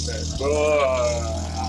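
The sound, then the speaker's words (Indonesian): A car with a loud exhaust passing, giving a harsh, rasping roar over a constant low rumble. A strained droning tone swells and then slowly eases off. “Sorry tadi interupsi, ada mobil yang knalpotnya kayak lagi ngebentak. Brut gitu.”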